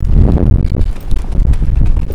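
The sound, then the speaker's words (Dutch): Strong wind buffets the microphone during an outdoor walk around the Galaxy Tower, making a loud, continuous low rumble with gusty surges. “Nou ja, dat is veel wind, zoals je hoort.”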